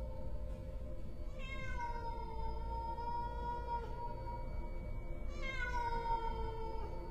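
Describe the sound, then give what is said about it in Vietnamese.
A cat meowing at night: two long, drawn-out meows, each sliding downward in pitch, several seconds apart over a steady low hum. “con mèo nó cất lên những tiếng gừ gừ trong cổ họng, rồi sau đó nó bắt đầu kêu lên.”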